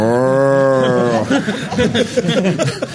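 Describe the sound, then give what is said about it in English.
A talking toy's voice imitates a cow, giving one drawn-out, steady moo of about a second, followed by choppy, garbled vocal sounds from toys being tested in the next room. “all I'm hearing is, the cow says,”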